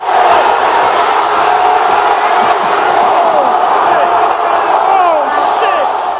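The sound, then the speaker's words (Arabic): Colombian football fans in stadium stands after their team's 3-1 win over Uzbekistan, a loud, continuous crowd roar full of shouts and whoops that stays chaotic throughout. “إلى الجمهور الكولومبي من بعد فوزه على منتخب أوزباكستان بنتيجة 3-1، حماس الجمهور كان زايد وصارت المدارج بحالة فوضى.”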